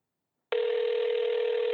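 Telephone ring tone sounding just before a voicemail greeting: after a brief silence, a steady, buzzy electronic tone starts abruptly and holds at an even level to the end.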